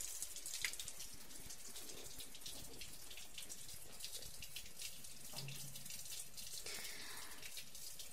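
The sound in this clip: Water running while someone showers, a faint, steady hissing stream that continues unbroken throughout, with no talking.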